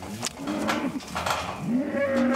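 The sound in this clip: Calves lowing after being separated from their mothers, several bawling moos with rising and falling pitch, loud and one after another, with no talk.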